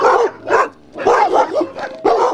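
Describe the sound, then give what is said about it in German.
Husky sled dogs in a kennel of 21 dogs on Andøya, in northern Norway above the Arctic Circle, bark and yip loudly. Several excited bursts come in an uneven rhythm with brief pauses between them. “nach Andøya gebracht, wo schon 21 Hunde sehnlichst warten”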